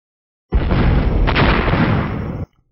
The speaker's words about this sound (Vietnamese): Sau đó là từng hồi tiếng nổ nặng nề vang lên